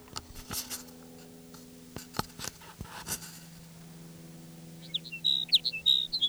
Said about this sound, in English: Sage sparrow number two.